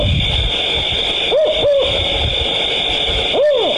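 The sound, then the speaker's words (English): A voice imitates a Canadian owl hooting: three tonal hoots, two close together and then one after a pause, each arching up and then down in pitch over steady background noise. “First, here's the sound of the Canadian owl.”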